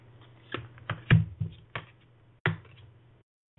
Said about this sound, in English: So we'll pull a card for all of the Scorpios out there. Let's see. I'll pull two for you.